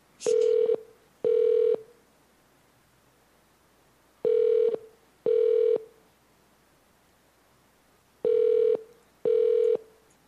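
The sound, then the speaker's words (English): A telephone ringback tone is heard as a call is transferred to a hotel's manager on duty. It comes as three paired bursts, ring-ring, with even pauses between the pairs, at a steady mid pitch over quiet background. “Okay, I can just transfer you to the manager on duty, and they'll be able to help you out, sir. Okay. Give me 1 second.”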